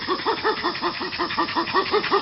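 A chimpanzee gives a pant call in an affiliative context, usually while approaching another chimp: a fast, regular run of many breathy, grunting pants, each a short rounded pulse, steady in rhythm and moderate in loudness.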